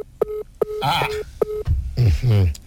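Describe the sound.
Telephone keypad tones as a number is dialled: several short beeps in a quick, uneven sequence, with a voice talking over the middle of them and continuing after the last one.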